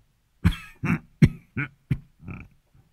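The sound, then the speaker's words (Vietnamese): An old man coughs, a fit said to bring up blood: six harsh, separate coughs in an uneven series, then a faint trailing one, loud and without other sounds. “ho ra một búng máu, cũng tanh hôi và có cả những con trùng ngoe ngoảy ở bên trong”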